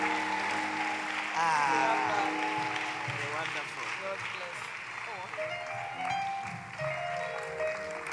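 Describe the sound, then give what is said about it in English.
Applause fills a church as the audience gives a clap offering to welcome a guest, a sustained wash of clapping that continues under voices throughout. “Help me with a clap offering. Giving honor to whom honor is due, we welcome Lady Reverend Adelaide Heward Mills. Let's do it better, let's do it better.”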